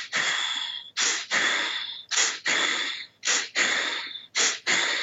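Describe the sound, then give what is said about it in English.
Bellows breathing exercise performed aloud: loud, forceful breaths in a steady rhythm, each short, sharp inhale followed by a rushing exhale about three times as long, repeating over several cycles with no talk. “It's pretty much the exact same thing, except the exhale is 3 times longer than the inhale. And it's not 2 to 3 breaths per second. And it's a little slower than that. But the bellows breath sounds something like...”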